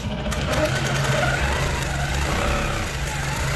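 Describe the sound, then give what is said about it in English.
A quilting machine whirs in a country cottage in Nabiak, a steady, dense mechanical hum that runs unbroken from start to finish. “In a country cottage in the small town of Nabiak, a quilting machine whirs to life.”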